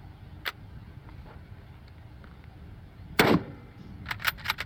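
A century-old rifle fires in a video game: one sharp, loud shot partway through, followed by a few quick, lighter clicks, against faint background noise.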